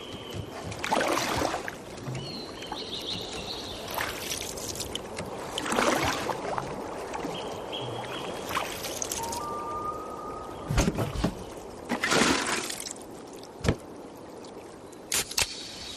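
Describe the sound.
Water laps and sloshes gently around a canoe. Softer stretches of trickling water are broken by a few louder splashing surges.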